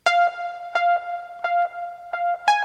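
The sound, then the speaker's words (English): A three-note synth loop from a song: a bright, buzzy tone rich in overtones plays short notes in a steady repeating rhythm, alone and moderately loud. “This is another just 3-note loop that goes through the whole song.”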